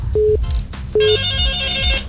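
Telephone ringing for an incoming caller: two short, steady mid-pitched tone bursts separated by a brief gap, followed by a fainter sustained tonal hum with a low background rumble.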